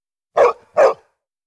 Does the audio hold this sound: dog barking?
yes